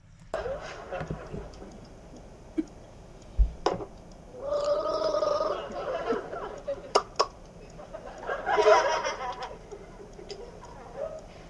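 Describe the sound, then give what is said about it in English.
A person gargles water to cool a sore throat: two stretches of wavering, bubbling gurgle, separated by scattered sharp clicks and quieter sounds. “cool your throat down with some nice, cool water. Oh, he's gargling.”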